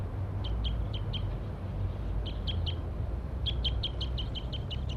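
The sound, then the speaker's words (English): Wild male birds chirping in many short, high, sharp calls that come in three quick bursts over a steady low rumble and hiss. “Wild bird. Wild bird.”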